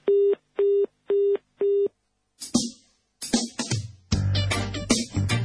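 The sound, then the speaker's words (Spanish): Answering machine beeps before leaving a message: four identical, evenly spaced, steady mid-pitched tones, each about a third of a second long, followed by a burst of mixed noisy sounds. “Usted se comunicó con el programa Nosotros y los Medios. Después de la señal, deje su mensaje.”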